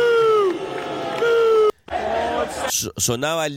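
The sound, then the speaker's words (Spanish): English football fans in the stands sing their national anthem during a match's opening ceremony, a dense sustained chorus of many voices that gives way to louder, rougher shouts toward the end. “sonaba el himno inglés y así se escuchó en la tribuna.”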